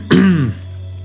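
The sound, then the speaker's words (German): Someone clears their throat once, a short, loud, rasping burst that fades quickly, followed by a faint steady hum. “räuspert sich”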